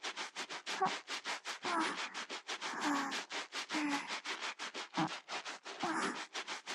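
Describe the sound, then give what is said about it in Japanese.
An armpit is scrubbed in a close-up washing roleplay with many brisk, evenly spaced rubbing strokes. The scratchy swishes are quiet and repeat in a steady rhythm with no talking. “まずは脇からゴシゴシしますね。 そう、ゴシゴシゴシゴシ。”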